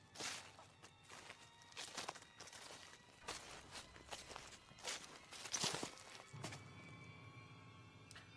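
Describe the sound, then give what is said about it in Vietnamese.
A person treads through leafy bushes in soft, rustling, crunchy footsteps, many in an uneven rhythm, faint throughout. “nghe có tiếng sột soạt như là tiếng chân người dẫm trong bụi lá vậy”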